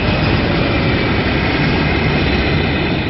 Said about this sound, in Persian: هواپیمایی که استفاده میکنیم یه فالکون 50ه